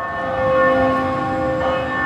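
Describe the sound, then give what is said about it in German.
Church bells from a church across the street ring for noon in Manhattan, heard from a small garden; sustained, resonant tones hum steadily at moderate loudness with no voices. “Die Glocken der Kirche schräg gegenüber läuten zum Mittag.”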